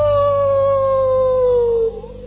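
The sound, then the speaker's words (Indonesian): A long, steady dog howl holds one sustained tone. It drifts slightly lower in pitch before breaking off near the end and leaving faint background noise. “pernah dengar suara lolongan anjing yang panjang, au,”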